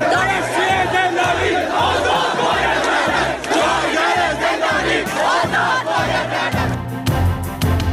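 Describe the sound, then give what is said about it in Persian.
University students at a protest gathering in Iran, held ahead of Student Day, chant loudly as a crowd, shouting phrases in a steady, repeated rhythm without a break. “گرد همایی‌های اعتراضی دانشجویان دانشگاه‌های ایران پیشاپیش روز دانشجو در ایران.”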